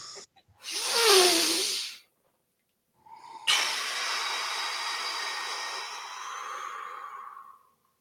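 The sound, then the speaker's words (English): A deep breath taken during a guided breathing exercise: a breathy inhale of about a second and a half, a short pause, then a long, steady hissing exhale lasting about four seconds, with no talk. “I've got a deep breath. Deep, get in real deep. Deep as you can.”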